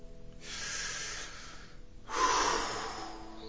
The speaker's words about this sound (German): Konzentriere dich auf diesen Punkt und atme einmal tief ein und wieder aus.